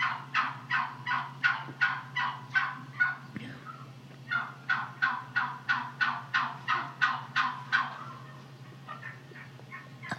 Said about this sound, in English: You hear the gobble in the background?